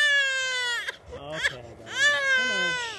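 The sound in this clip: A fussy four-month-old baby cries in loud, high, wavering wails with brief catches and breaks, while being moved into a stroller.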